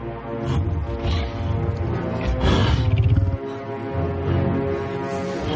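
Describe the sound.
A deep, loud roar from a huge bear-like beast standing on a mound in a mountain fantasy film scene. It swells to a strong peak midway over a dense, sustained background.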